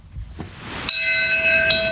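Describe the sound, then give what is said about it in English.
A single bell rings out over Ground Zero at a memorial commemoration: a loud struck tone with a long, shimmering resonance, sounding once more as the first ring sustains, over a faint background hush. “A simple, haunting single bell rings out over Ground Zero, site of the worst attack.”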